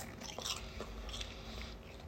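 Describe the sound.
Crisp bites and crunchy chewing of seasoned nori seaweed snacks, faint and close, with a few brittle crunches in a short, quiet stretch and no speech.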